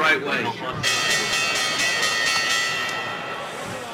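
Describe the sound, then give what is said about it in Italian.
A small handbell rings repeatedly as a signal on a radio economics show, its bright, sustained metallic tone repeating in steady strikes after a brief quieter opening. “Vai con la campanella.”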